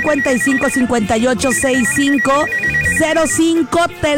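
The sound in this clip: A telephone ringtone sounds on a radio call-in line, a loud looping electronic melody over a steady pulsing high beep that repeats throughout.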